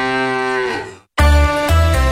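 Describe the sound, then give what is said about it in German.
Two loud, low moos come from a novelty mooing milk bottle. The first is drawn out and tails off, and after a brief silence a second, heavier moo follows. “Finde eine der noch 4 verbleibenden Muhenden Müllermilchflaschen und gewinne 50.000 €.”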